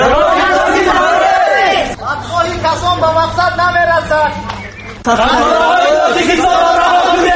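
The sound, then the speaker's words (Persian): Tajik journalists chant protest slogans against a ban on Tajikistan's trains crossing a neighbouring country, loud rhythmic group voices that ease in the middle before surging back. “حدود یک ساعت روزنامه‌نگاران شعار پرتویی کردند.”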